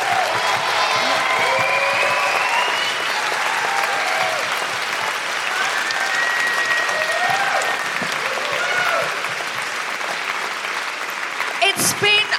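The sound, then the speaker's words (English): Sustained audience applause at a live comedy and music benefit show for Reclaim These Streets. A dense, even wash of clapping fills the whole stretch, with a sharper, louder burst near the end. “can I have a huge round of applause for the incredible Rick Henley Streets and Jamie Klingler, and also Pippa Woodrow taking on the law”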